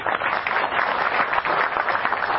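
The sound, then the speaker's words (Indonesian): Applause for a speaker during a discussion, a continuous, moderately loud patter of many hands that stays even from start to finish. “Tepuk tangan untuk dia.”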